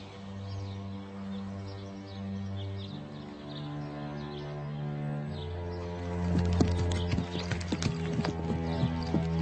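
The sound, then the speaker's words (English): Horse hooves clip-clopping as a horse is ridden across a riding ring. A quick run of hoof beats grows louder in the last few seconds over a sustained musical background. “just ride across the ring and over that fence there.”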